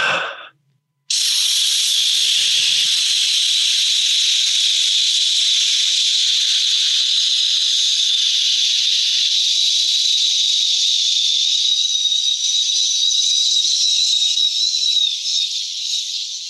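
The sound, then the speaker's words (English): A voice imitates a white-noise sound machine used to help children sleep: after a short opening sound, a steady, loud breathy hiss is held for about fifteen seconds, wavering slightly near the end. “We have gotten accustomed to having them sleep with a sound machine. You know, we talked about this back in the day. So I'm going to just go ahead and give you about 30 seconds of a.”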